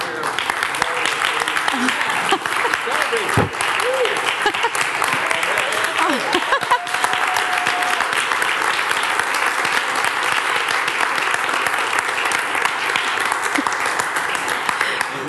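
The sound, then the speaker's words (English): Audience applause welcoming a speaker at a worship gathering: dense, steady clapping from a large crowd that runs unbroken and loud for about fifteen seconds. “Hey, before she starts, let's just applaud”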